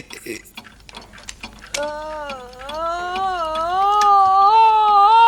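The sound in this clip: A strange alarm clock ticks in sharp, even clicks, then a sustained, wavering tone rises and swells louder until the end.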